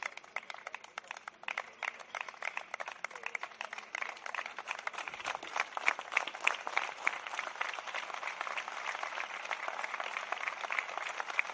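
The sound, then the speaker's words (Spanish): A crowd applauds at a hospitality workers' protest outside a regional government office in Soria, dense, steady clapping that holds at an even level throughout. “Sonidos de platos rotos y de aplausos a un sector que lo está pasando francamente mal.”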